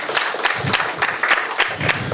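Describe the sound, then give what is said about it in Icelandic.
Applause for four people at a meeting: a scattered run of loud, separate claps in an irregular rhythm, with soft low thumps among them. “Ef ekki bara klappa fyrir þeim aftur þessum fjórum.”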